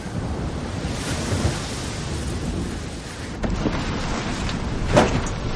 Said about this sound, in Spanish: El viento entra por la abertura.